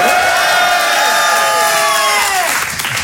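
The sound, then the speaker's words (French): Excited audience at the Grand Point Virgule comedy show, with loud, sustained cheering, applause and high whoops throughout, easing slightly at the very end. “Il y en a qui sont énervés dans la salle.”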